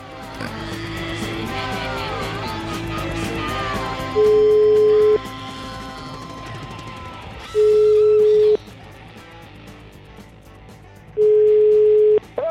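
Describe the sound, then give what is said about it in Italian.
A telephone call to a restaurant rings out: three long, steady beeps come at regular intervals over background music. “La telefonatina, una bellissima telefonata farei proprio al ristorante.”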